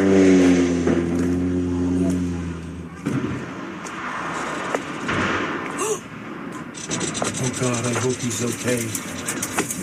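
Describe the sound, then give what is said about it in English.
A Kenmore Air seaplane crashes into the water of Shallow Bay in the San Juan Islands: a loud, steady, droning engine tone cuts off abruptly into harsh, rushing, splashing noise. People talk over the noise. “those who watched a Kenmore Air seaplane crash in the San Juan Islands. And a warning, you can hear what sounds like the actual crash in this video posted on X by a user who goes by the handle JMS.”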